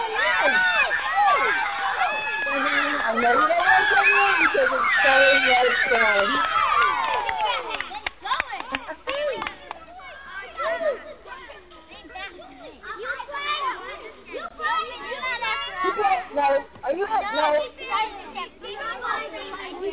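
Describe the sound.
Children play on a playground, with many young voices shouting, laughing and chattering in a lively, continuous crowd noise that stays loud and busy throughout.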